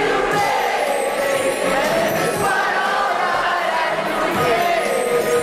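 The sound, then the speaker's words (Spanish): Audience joining in on a karaoke chorus at the Ig Nobel prize gala: a loud, dense mass of many voices singing a melody together, sustained without a break. “ahí estaban todos los premiados de los Ig Nobel cantando, ahora entra el público con el estribillo”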